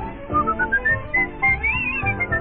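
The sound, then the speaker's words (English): Someone whistles a melody: clear, pure tones move through a short tune whose notes climb higher in pitch, with no talking. “I love to whistle, 'cause it makes me merry, makes me feel so very.”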